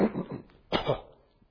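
Throat clearing and coughing from someone about to preach a sermon: two short, rough bursts, the second one louder, followed by near silence.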